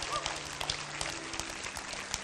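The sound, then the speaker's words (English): A crowd claps together in honor of a man turning 80, giving a brisk, dense patter of many hands that stays fairly even throughout. “I think we could clap our hands one more time for him.”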